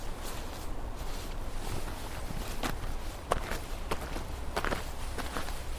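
Footsteps walking behind a house, soft and faint steps in a steady rhythm over quiet background noise, with a slightly sharper step near the middle.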